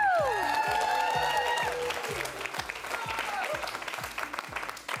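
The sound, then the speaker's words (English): An audience applauds and cheers at a live show, with a steady wash of clapping. A voice sounds briefly at the start, and a regular thumping beat runs underneath throughout. “Give yourselves a hand, louder, yeah.”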